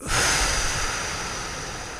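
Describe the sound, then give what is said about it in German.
A deep breath is drawn in during a relaxation breathing exercise, an airy hiss that swells quickly and then holds fairly steady for about two seconds, with no talking. “Tiefen Atemzug ein, kurz halten.”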